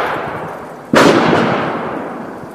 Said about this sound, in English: It's New Year's Day, 2011. Checking in at the Carter's Country local rifle range.